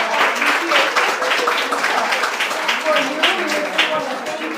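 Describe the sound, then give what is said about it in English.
Round of applause from a small group at a community meeting honoring a guest with a presentation, irregular clapping throughout with voices mixed in. “But a round of applause, and we want to do a presentation to John.”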